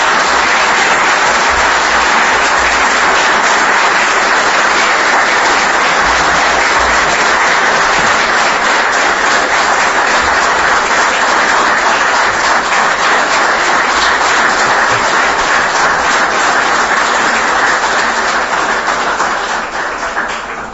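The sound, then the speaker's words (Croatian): Sustained audience applause at a civic ceremony honouring a brave young man, a dense, even roar of many hands clapping that carries on loudly for about twenty seconds before easing slightly at the very end. “Naš hrabri mladić, Amil Tankić, zahvalimo mu aplauzom i pozivam ga na primu zahvalnosti.”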